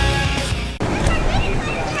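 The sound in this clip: Water splashing and sloshing in a swimming pool, a busy, continuous wash of splashes with voices in the background.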